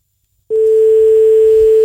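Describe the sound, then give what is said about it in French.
A telephone ringing tone on a call: a steady single-pitched tone begins after half a second of silence and holds unbroken to the end. “Ça sonne.”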